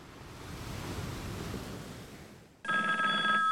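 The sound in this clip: A telephone rings after a stretch of washing surf noise. The electronic ring breaks in abruptly, loud and steady, with bright ringing tones held to the end.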